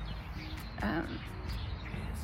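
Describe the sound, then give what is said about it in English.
Birds chirping in a backyard: many short, high tweets scattered over a soft, steady background hiss, fairly faint throughout. “today as I sit here, I hope you can hear all the birds that are around me. I'm in my parents' yard.”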